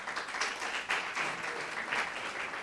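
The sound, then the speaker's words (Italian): Applause from a conference audience greeting the speakers at a convention. A dense, steady wash of many hands clapping continues throughout with no voices over it. “Quindi io direi di fare un applauso a questi signori che verranno”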